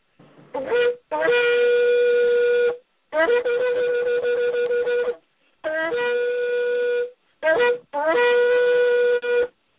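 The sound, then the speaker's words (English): A shofar, a ram's horn, is blown in several blasts of varying length, some short and some long. Each blast starts with a brief upward slide into a loud, buzzy, steady tone, separated by short silences. “Let me sound that shofar one more time.”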